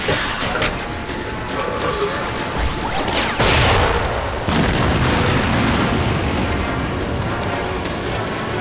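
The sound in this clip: A big artillery battery fires in a combat scene, with heavy booming blasts and rolling rumble over constant battle noise, including a few louder explosions in the middle.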